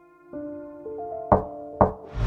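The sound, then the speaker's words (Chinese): Two sharp, hollow knocks on a door, about half a second apart, sound over quiet sustained musical tones. “有人敲门”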